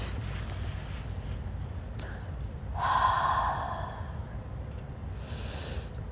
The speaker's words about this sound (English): So let's close our eyes and take a deep breath.